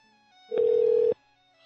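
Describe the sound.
Single ringback tone on a phone line while calling someone back during a prank call: one steady, mid-pitched electronic beep lasting about half a second, then quiet.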